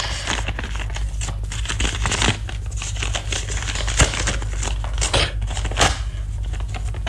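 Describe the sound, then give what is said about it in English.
Paper crinkles and crackles as a thick, bulky envelope holding a bundle of banknotes is opened. Many sharp rustles and crisp snaps sit over a low steady hum. “There are two envelopes. Open the rather thick, bulky one. Well, go on, there's nothing in it that can bite you.”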